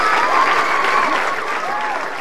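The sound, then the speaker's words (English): An audience applauds to welcome the Spaghetti Circus, a youth circus troupe, with dense, steady clapping that stays loud throughout. “Please put your hands together and welcome the Spaghetti Circus.”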